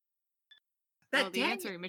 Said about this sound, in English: Answering machine.